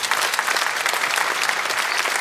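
Friendly applause in a Munich studio during a morning program, greeting a colleague reporting from Wolfsburg: a short, dense, steady patter of many clapping hands.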